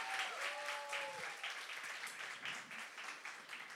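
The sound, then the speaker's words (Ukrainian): Audience applause at a live comedy show, a steady burst of clapping with a gently pulsing texture that stays fairly loud throughout, with a few voices faintly mixed in. “Під ваші оплески новини на Радіо Скорбота.”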